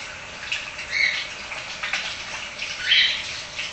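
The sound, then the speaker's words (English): Hands are washed under running tap water in a kitchen: a soft, steady hiss with faint splashy swells as the hands move through the stream. “So I'm washing my hands again.”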